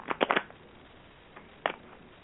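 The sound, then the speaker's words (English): A deck of playing cards is shuffled in quiet, brief riffling bursts: a tight cluster of three near the start, then a single burst after a pause. “What I'll do is I'll shuffle the cards, and first we'll think Keisha, Greensboro. Uh-huh. Okay, tell me when to stop shuffling.”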